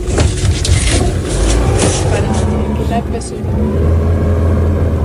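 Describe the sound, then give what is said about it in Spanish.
A motorboat engine drones loudly and steadily as the boat travels across a reservoir: a continuous low, rumbling hum that dips briefly partway through and then returns to full strength. “Navegamos por el embalse, nos vamos, nos montamos en un barco para revisar los arroyos.”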